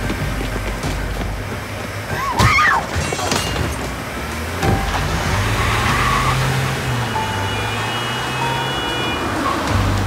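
A car drives away fast, its engine a low steady drone that rises slightly in pitch amid scattered background road noise.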